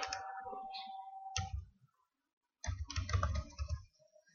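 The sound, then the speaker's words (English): Typing on a computer keyboard while prices are checked online comes as quiet bursts of rapid key clicks and clacks in two runs, split by a short silent pause. “sorry about the typing. Just to see the difference in price.”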